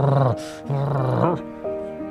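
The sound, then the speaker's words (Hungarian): Angry, voiced growling from a boxer dog, delivered in several tonal, rumbling bursts with a brief hissing rasp between the first two, loud and with no other sound. “és rettentő dühös lett, morgott és csikorgatta a fogát”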